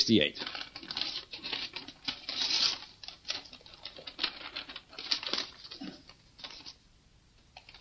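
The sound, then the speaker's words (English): Dry paper crinkling and rustling as an envelope is opened and its contents handled. A fairly faint run of quick, scratchy crackles, with a voice briefly heard near the start and the end. “Now I'm going to have you open the envelope and read out the list of accomplishments made by the United Kingdom in the year”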